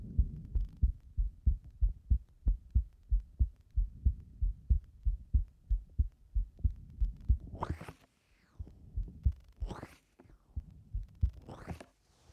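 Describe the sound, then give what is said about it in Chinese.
Heartbeat with a murmur: many steady, fairly quick low thumps in a regular rhythm, followed near the end by a few louder rushing swooshes. “一天的心跳就有点流声，是我的心跳太有力了。”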